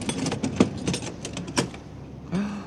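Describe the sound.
A suitcase lock is worked open in a radio drama, giving a few sharp metallic clicks and rattles, then a short quieter gap before one last clatter.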